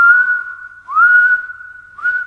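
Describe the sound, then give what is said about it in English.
A person whistles a long, steady high note, sliding up into it twice more, so the unbroken tone swells in three loud stretches. “He let out a long, high whistle.”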